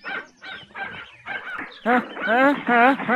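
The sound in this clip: A dog in an animated cartoon barks and yelps after a stretch of talk; the later barks are loud and tonal, forming a quick run of a few calls.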